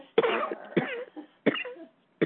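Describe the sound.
Four harsh coughs in an uneven sequence, each a sharp burst that trails off into a rough, throaty tail, heard alone.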